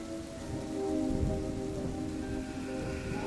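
Rain falling in a steady, continuous patter of drops, an even wash of sound that holds at a constant level throughout with no break.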